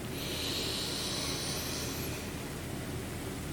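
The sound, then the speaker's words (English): A huge deep belly breath drawn in, heard as a steady, soft airy rush of inhaling that holds evenly for a couple of seconds before easing slightly, with no talking. “Once more. Take a huge belly breath in.”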